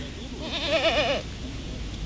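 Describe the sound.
A goat at a family petting zoo gives one long, wavering bleat with a trembling, tremulous tone. It stands out clearly over a low background murmur and then fades away.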